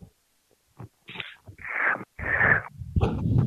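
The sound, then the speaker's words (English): Breath noise blown into a microphone windscreen: a few soft puffs building into long, loud rushing exhalations and snorting gusts, with no talk. “Okay, so this windscreen's supposed to be stopping my breathing, but I have to keep adjusting it.”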